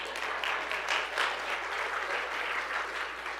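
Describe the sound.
A church audience at an Easter service applauds, a steady, dense wash of clapping that holds at an even level throughout, with no voices over it.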